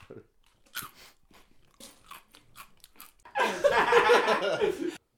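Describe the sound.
Someone eats crunchy food, loud crisp chewing and biting that follows a stretch of quiet talk and chuckling and lasts about a second and a half before stopping abruptly.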